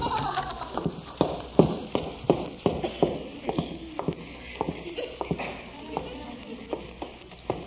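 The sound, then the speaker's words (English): Footsteps going downstairs inside a house: many steady, thudding steps in an even rhythm, each a short knock with a little shuffle between. “Wonder if there's anything downstairs in the refrigerator. I'll go downstairs and look.”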